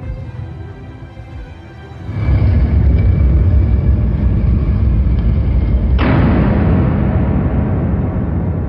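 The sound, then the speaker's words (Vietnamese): A massive hidden stone gate drops shut inside a tomb to trap robbers, setting off a deep, heavy rumbling roar that starts abruptly after a quiet opening and stays loud and steady, with a second surge partway through. “bỗng nghe bên ngoài lối vào có tiếng ầm ầm vang dội. Cửa đập ngàn cân giấu trong tường thành hạ xuống, chặn đứng đường lui của đám trộm.”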